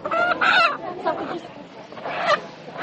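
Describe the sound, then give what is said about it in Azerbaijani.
Live chickens for sale at a market, bought in from poultry farms, cluck in uneven bursts with a few louder squawks. People talk underneath them throughout. “Gülçöhrə Əliyeva bazarda diri toyuq satmağa məşğuldum”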